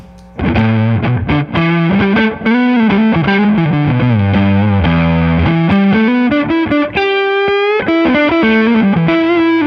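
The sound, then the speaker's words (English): Electric guitar through a fuzz pedal with the gain turned all the way up and the tone raised a little: loud, thick, saturated notes sustain and shift in a continuous melodic line with no pauses or talking. “I will wind it right up and it does a fuzz. Okay, let's hear it. So it's, we get it all the way there, gain all the way up, turn the tone up a little bit, and we get.”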